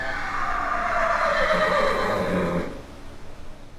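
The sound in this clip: Horse whinnying at the stallion barn of O'Sullivan Farms, a thoroughbred breeding farm in Charlestown, West Virginia: one long, quavering neigh of about two and a half seconds, then dropping to faint rustling.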